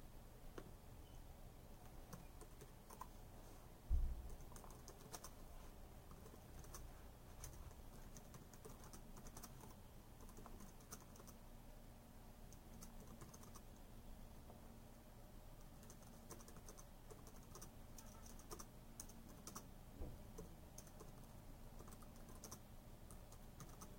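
Faint tapping on a computer keyboard, with many soft, irregular key clicks running throughout and one louder knock near the start. No voices are present.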